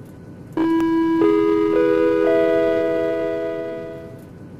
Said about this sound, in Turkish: Türk Hava Yolları'nın TK-737 sefer sayılı Ankara uçağına hoş geldiniz.